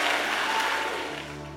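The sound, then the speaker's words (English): An audience claps during a church service, a dense, steady patter of hands that holds level and then eases off slightly near the end. “Clap your hands and say, this nonsense is over.”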